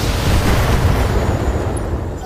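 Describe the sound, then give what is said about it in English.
Mech weapons fire at an enemy mech in a video game battle: a dense, low, rumbling roar of blasts that stays loud and sustained throughout, with no voices. “It's gonna move and fire at their Shadowhawk.”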